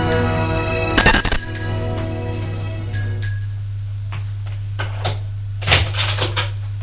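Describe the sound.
An apartment doorbell gives a bright, sharp ring that decays in ringing tones, then a softer second chime, followed by scattered faint knocks over a steady low hum.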